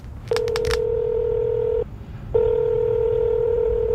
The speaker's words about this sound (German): Dann muss ich sie mal eben anrufen.